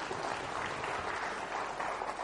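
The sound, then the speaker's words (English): An audience applauds during a church service, a continuous wash of many hands clapping, fairly faint and even, with no clear breaks. “Sorry, I know there's lots of clapping this morning.”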